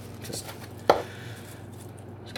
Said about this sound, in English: just don't have to chop it too finely, but you don't want to eat a whole leaf anyway.